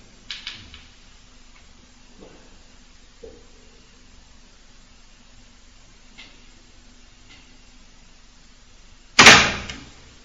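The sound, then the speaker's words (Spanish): A door in a house moves by itself with no wind. A few faint scattered ticks and creaks over quiet hiss lead to one sudden, loud slam near the end that decays quickly. “se ha movido la puerta. Y aquí no hay corriente, tío.”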